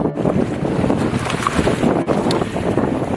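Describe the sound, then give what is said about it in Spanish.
Rumbling, rushing water and wind noise of the 178-metre Russian nuclear submarine Belgorod K-329 at sea, a dense, steady roar of moderate loudness with no voices. “En estas mismas aguas, Rusia ha lanzado maniobras con buques con armamento nuclear, como el famoso submarino Belgorod K-329.”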